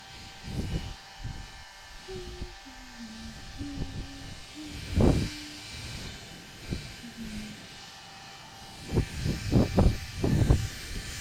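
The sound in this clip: A switched-on steamer releases moist steam as a steady hiss, with a few louder bursts rising over it.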